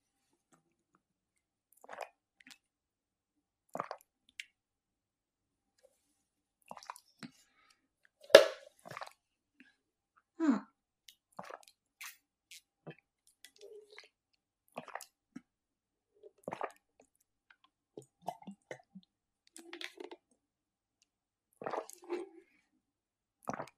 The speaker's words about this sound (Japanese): まずは、水をまた一本飲みたいと思います。いただきます。